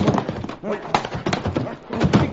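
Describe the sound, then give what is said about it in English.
Hooves clip-clop as horses draw three U.S. Army wagons closer, a steady, busy patter of hoofbeats over a low rumble of rolling wheels. “here come the army wagons now.”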